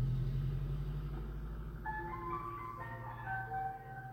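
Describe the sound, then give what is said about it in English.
An ice cream van outside a house plays its chime, a bright tinkling melody of high notes that begins partway in over the low, steady rumble of its idling engine. “Ice cream van. Right outside my house. It's annoying. It's so annoying, and now I want ice cream.”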